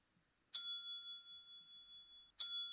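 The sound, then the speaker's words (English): A hotel desk bell is struck twice. Each strike gives a bright metallic ding that rings on with a clear, shimmering tone, and the second strike comes nearly two seconds after the first. “That was a double ding. Oh, shit. And that was our hotel desk bell. That's the bell that we have.”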